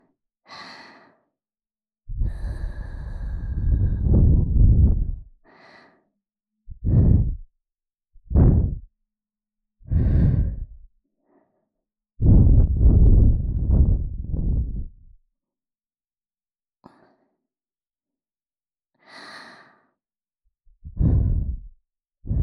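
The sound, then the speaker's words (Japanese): Repeated blowing to cool something down: many soft, breathy puffs separated by silent pauses, some drawn out and sustained, others short and quick. “で一度ふうふうしますね。”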